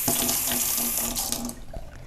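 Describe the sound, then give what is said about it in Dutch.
Water runs from a tap while fingers are rinsed under it during food preparation. The flow makes a steady, soft hiss with slight splashing changes, and no voices are heard. “Ik ga even mijn vingers spoelen.”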